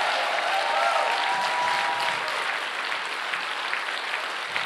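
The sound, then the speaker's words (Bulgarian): An audience applauds in church during a sermon. The clapping is a steady, continuous patter that eases slightly in loudness over several seconds and has no clear pauses. “Хайде ръкопляскай, ако вярваш, че Бог има.”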